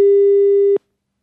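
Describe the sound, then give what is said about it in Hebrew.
A telephone busy signal sounds while a call is being placed: one loud, steady mid-pitched electronic tone that holds under a second, then cuts off abruptly into silence. “שנייה, בוא ננסה עוד פעם להתקשר ל... כן, כן, תקשרו שוב פעם.”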